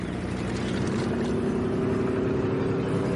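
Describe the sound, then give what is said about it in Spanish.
A ship arriving at a port gives off a steady, low engine drone mixed with broad rushing noise. The sound stays even and continuous throughout, with no voices. “semana siguiente el barco arriba a otro puerto.”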